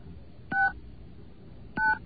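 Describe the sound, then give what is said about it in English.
Touch-tone telephone keypad dialing a number over a phone line: two short, bright dual-tone beeps, about a second apart, over faint line hiss. “Get a happy dial tone. Okay. There we go. Okay. 1-888 VINE 4 NY.”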